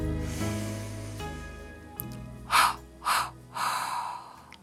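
Three deep, breathy inhalations follow one another at a steady pace, each a short rushing intake of air over soft sustained background music.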